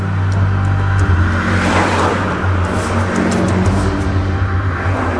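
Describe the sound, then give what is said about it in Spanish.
A car engine drones as the car is driven as fast as possible toward La Serena: a steady, loud low hum with layered tonal harmonics and constant road roar, without voices. “ellas tomaron sus cosas y se dispusieron a viajar en el auto de Karen lo más rápido posible rumbo a La Serena.”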